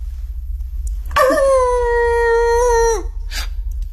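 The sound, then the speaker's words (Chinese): A wolf howls once, a long, clear tonal cry held for about two seconds that dips in pitch as it ends, over a constant low rumble. “什么声音？ 好像是狼。”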